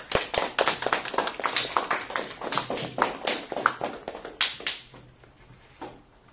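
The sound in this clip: Audience applause welcoming a speaker at a programming talk: many dense, crisp claps at a lively rhythm that thin out and stop near the end.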